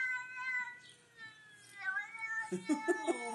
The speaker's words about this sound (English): Is that kitty saying, let me inside?